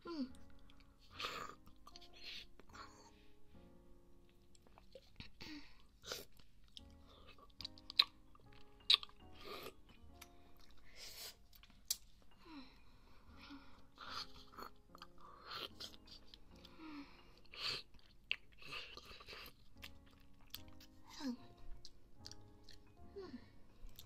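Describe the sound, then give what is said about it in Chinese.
A vanilla milk-flavored snack is bitten and chewed, producing many quiet, crunchy chews and crackles in an uneven rhythm that continues throughout. “你问我吃什么口味哦？这个是牛奶口味的，香草牛奶的，而且听说这款有什么双倍奶香味”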